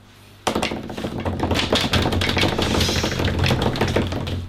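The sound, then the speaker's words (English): A drum roll tapped out by hand on a table during a tabletop role-playing game session: fast, dense, loud taps start abruptly after a brief quiet moment and continue steadily to the end, with no talking. “Drum roll, please.”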